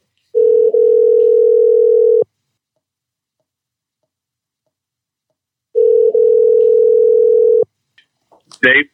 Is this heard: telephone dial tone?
yes

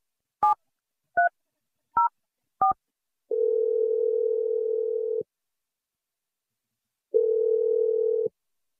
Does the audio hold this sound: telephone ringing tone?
yes

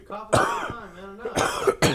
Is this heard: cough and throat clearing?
yes

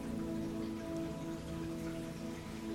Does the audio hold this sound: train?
no

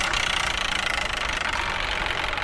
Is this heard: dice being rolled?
no

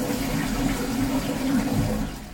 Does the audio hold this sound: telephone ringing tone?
no

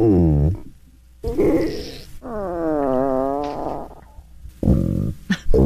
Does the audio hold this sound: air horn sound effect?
no

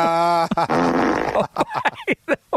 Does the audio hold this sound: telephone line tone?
no

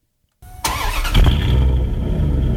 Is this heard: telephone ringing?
no

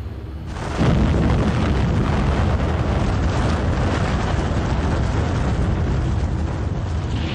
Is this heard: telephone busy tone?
no

